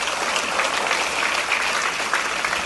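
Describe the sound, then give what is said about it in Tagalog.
A church audience applauds, with dense, steady clapping that holds at an even, loud level for a few seconds without a break. There is no clear speech. “Palakpakan po natin ang Diyos.”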